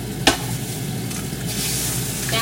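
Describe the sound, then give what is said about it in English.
Two fresh eggs frying in an egg ring give off a steady, crackling sizzle that runs throughout, with one sharp tap near the start. “So just using two fresh eggs”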